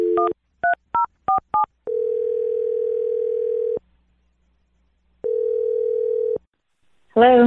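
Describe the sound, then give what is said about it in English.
Touch-tone keypad beeps as a phone number is dialed for an on-air call: a quick run of short dual-pitched tones, then two long steady ringing tones separated by silence, and a voice answering at the end. “We're going to dial her number here. You ready? Yeah, I'm nervous. I hope she picks up. I hope so, too. We'll find out. Here we go. I'm going to dial it right now.”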